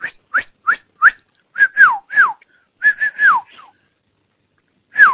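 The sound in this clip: A person whistles a tune in clear, high notes: many short rising-and-falling phrases in quick succession, then a pause before one last note, with no talk.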